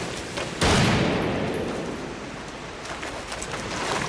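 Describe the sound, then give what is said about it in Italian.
A single loud gunshot cracks abruptly during a police raid, followed by a sustained noisy rumble that slowly fades but does not die away. “Che ha sparato?”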